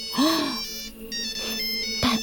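An electronic telephone ringtone sounds in bright, sustained tonal bursts, with a swooping note at the start and another short burst near the end.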